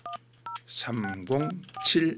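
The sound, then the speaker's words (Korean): Two short telephone keypad dialing tones sound as a call is placed to a listener. A voice then talks. “한번 전화를 한번 걸어 보겠습니다.”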